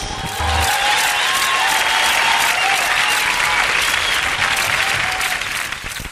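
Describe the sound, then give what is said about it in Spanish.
Dense audience applause: many hands clapping in a steady, loud wash that holds for about six seconds before tapering off at the end. “Se ganaron aplausos.”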